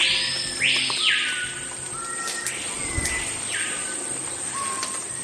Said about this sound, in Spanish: Así como vas a escuchar a continuación, suena la Amazonía.